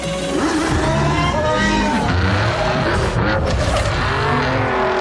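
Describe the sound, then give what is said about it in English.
Racing car engines and squealing tires from a Forza racing video game, a loud, unbroken blend of revving motors whose pitch keeps shifting. “Oh, Forza, I bet. Oh, it's a racing game.”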